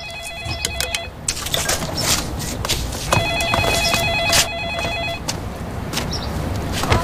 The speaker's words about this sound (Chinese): 接电话呢。